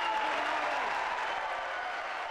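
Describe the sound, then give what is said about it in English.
A standing ovation from mourners at the start of a funeral in a church in Greenwich, with dense, sustained clapping that fills the whole moment at an even, moderate level. “This is the standing ovation at the start of the funeral of Malcolm Hardy at St Alphege's Church in Greenwich last February.”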